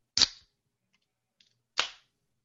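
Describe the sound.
A can being punctured at the bottom to shotgun it: two sharp, bright cracks about a second and a half apart, with a faint tick between them, in near silence.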